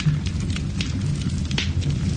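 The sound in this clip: Wood logs burning in a fireplace in the Ardèche crackle steadily, with many small irregular pops and snaps over a constant low hiss and rumble.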